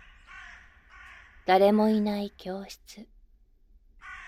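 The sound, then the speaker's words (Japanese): Crows caw at dusk, giving a few harsh, nasal calls with the first one loudest and longest. A voice speaks softly before and after the calls. “カーカーと鳴くカラスの声に、あなたの胸が少しだけ締め上げられる。”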